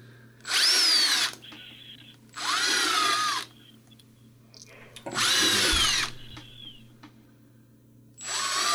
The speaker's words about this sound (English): he is drilling various size holes in the body of the ghost, making it a holy ghost.